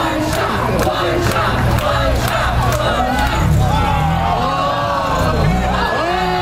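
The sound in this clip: A crowd of spectators at a first-ever street competition in Philadelphia, with fifteen competitors, yells and cheers in a loud, unbroken roar of overlapping shouts and whoops.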